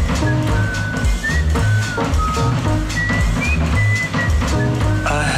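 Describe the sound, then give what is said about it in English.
A person whistles a simple melody that drifts out through an open window. Thin, clear whistled notes are held and joined by short pitch slides, set against a dense, steady rumbling background. “Out through an open window came this simple melody. I heard somebody whistle.”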